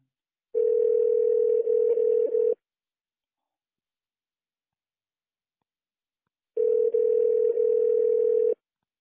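A telephone tone sounds before a call is placed: two long, steady, mid-pitched tone bursts of about two seconds each, separated by a long stretch of silence, with no voices.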